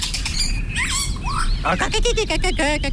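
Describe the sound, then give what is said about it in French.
Birdsong attributed to a common chiffchaff: quick, high, thin chirps and tweets repeated over a steady background hiss. “Oh, le joli Philoscopus colibita. ...apprend les chants d'oiseaux.”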